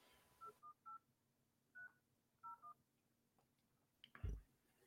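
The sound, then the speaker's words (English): Telephone keypad tones dial a number to place a call: six short, quiet beeps in irregular small groups, followed by a dull knock. “So I wondered if we should maybe give Lisa a quick call and just see whether or not that is still an option.”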